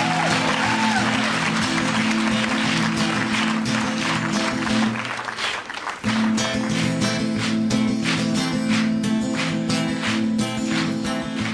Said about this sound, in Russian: И первую песню, которую мы предлагаем для употребления, это чешская народная песня для всех чехов, на чешском языке, естественно. Под ваши аплодисменты.